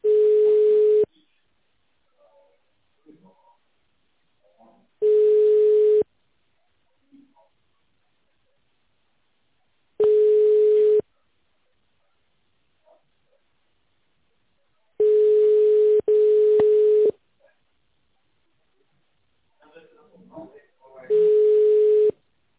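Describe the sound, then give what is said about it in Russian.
Telephone ringback tone plays while a call is transferred to a secretary: a steady mid-pitched beep about a second long repeats every few seconds. Silent gaps separate the beeps, with faint low sounds in between. “Для соединения с секретарем оставайтесь на линии. Ваш звонок переводится на секретаря.”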